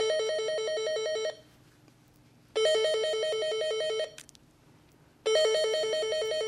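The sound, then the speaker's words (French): A telephone rings in three long bursts of a bright, buzzy electronic bell tone, separated by even pauses, with the last burst cut off at the end. No voices are heard. “feuilletait tranquillement son carnet d'adresses quand, tout à coup, son téléphone sonne.”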